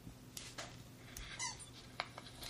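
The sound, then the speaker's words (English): A squeaky dog toy being squeezed by a Labrador retriever lying down, giving a few short, faint, high squeaks spaced irregularly over a soft background hiss. “That is the sound of the toy squeaking as the Labrador is lying down. Retriever, sorry. Playing with the squeaky dog toy.”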